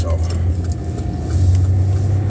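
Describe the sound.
A car being driven gives off a steady, low engine hum with road rumble. It stays constant and fairly loud throughout, swelling slightly about halfway through.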